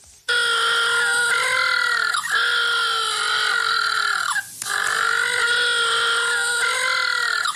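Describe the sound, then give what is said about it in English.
Little blue penguins calling: loud, harmonic braying drawn out in a few long sustained stretches, each separated by a brief pause. “If you're wondering what that sound is, that is the sound of little blue penguins.”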